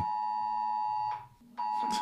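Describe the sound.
A phone emergency warning alarm goes off during a test alert: a loud, steady high-pitched tone rich in harmonics, broken by one brief pause and then resuming.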